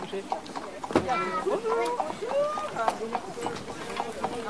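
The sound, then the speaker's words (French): Horse hooves clip-clop on the ground as a horse pulls a carriage of about fifteen seats, a run of irregular sharp knocks heard beneath people talking. “Quand le bruit des sabots se fait entendre, les yeux s'illuminent.”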